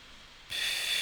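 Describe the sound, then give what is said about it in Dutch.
A deep breath out during a group breathing exercise, a sudden soft airy hiss that starts halfway through and holds steady to the end, faint and alone. “Laten we allemaal diep uitademen.”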